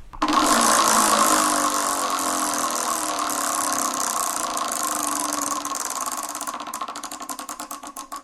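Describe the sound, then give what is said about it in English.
A game-show prize wheel being spun: a steady whirring rush that breaks into a run of rapid ticking clicks near the end. “Well, it's time to give the wheel a spin.”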